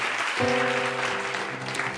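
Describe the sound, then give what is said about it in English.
Studio audience applause on a game show as contestants choose to keep playing, moderate and even clapping with a steady musical tone sustained under it. “And we applaud that.”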